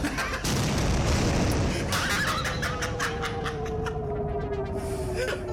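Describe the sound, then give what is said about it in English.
A spaceship blown up in an audio video game: a loud, sustained, rumbling explosion roar that holds for several seconds and eases off slightly toward the end. “All right. Ship is destroyed. You lose.”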